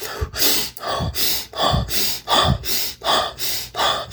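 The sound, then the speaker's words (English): Rapid hyperventilation breathing: intense, deep nose inhales alternate with fast, forceful mouth exhales. Many loud breaths follow in quick, even rhythm. “You use hyperventilation. We talked about that kind of breathing several times on this podcast. What it sounds like is like,”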